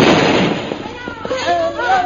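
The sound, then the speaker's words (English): A bomb explodes in a film scene, a loud, broad blast that fades into rough rumbling and crackle while a man's voice speaks over the fading noise. “Do you see that bomb coming? They wouldn't dare.”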